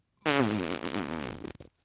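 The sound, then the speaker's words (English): A voice imitates a fart let out against a chair: a loud, buzzing raspberry about one and a half seconds long that breaks into a few short sputters at the end. “he just farted. Like, listen. It was like up against the chair. It was like,”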